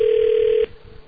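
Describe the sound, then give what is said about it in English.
An automatic telephone ringback tone plays on a call being placed: one steady, mid-pitched tone held for just over half a second, then cut off sharply, leaving faint line hiss. “Oh, it's an automatic ringback. Oh, we're calling him.”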